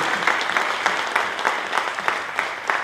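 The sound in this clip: Applause from an audience during an official speech on meat supply, a wash of clapping with sharper claps standing out at a steady, regular beat across the whole stretch.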